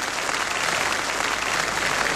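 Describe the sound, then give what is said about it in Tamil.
A studio audience applauds at the close of an arts and music programme: dense, continuous clapping fills the whole clip at an even, loud level, with no gaps and no voices above it. “இங்க இருக்கிற பார்வையாளர்கள் நீங்க தான் இன்றைக்கு வந்து எங்களை உற்சாகப்படுத்திருந்தீங்க, அதனால உங்களுக்கு நீங்களே ஒரு கைத்தட்டல் கொடுத்துக்கங்க”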